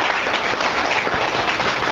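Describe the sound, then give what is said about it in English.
Clapping from a chamber of commerce audience giving a round of applause to new member businesses: many hands in a thick, even patter, steady and fairly loud for the whole stretch. “So a round of applause for all of them.”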